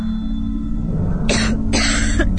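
A woman coughs in a few harsh, breathy bursts over a steady low hum.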